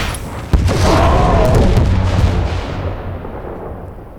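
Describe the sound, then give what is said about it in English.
Rocket explosion in a video game: one sharp, heavy booming blast, then a long rumbling roar that slowly dies away over several seconds. “I might not have my light, but rockets still work their magic.”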